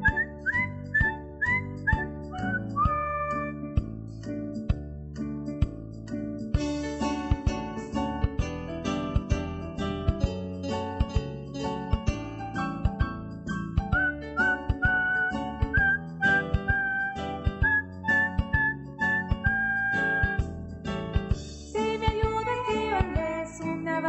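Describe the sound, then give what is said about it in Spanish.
A person whistles a melodic tune over steady rhythmic instrumental backing. The whistled notes are clear and sustained, gliding between pitches, and continue at a moderate level throughout. “me tendré que conformar solamente con silbar.”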